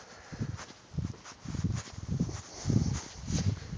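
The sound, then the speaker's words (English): A person walking outside on a cloudy night makes soft, steady footsteps, about seven low thuds at an even pace with a light rustle and no talking. “Whew. Yeah, I'm walking right now outside.”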